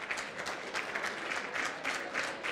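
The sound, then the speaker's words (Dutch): Applause at a presentation, a brief burst of dense, steady clapping from an audience, with no talking. “Ik mag een applausje horen.”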